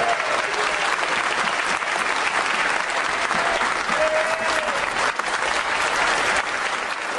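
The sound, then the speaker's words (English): MPs in the House of Commons give a standing ovation to the Ukrainian ambassador, a dense, unbroken roar of clapping from many people that stays loud and steady throughout. “That's MPs across the House giving a standing ovation to the Ukrainian ambassador, who's sitting in the gallery above Boris above Keir Starmer, so above the Labour side.”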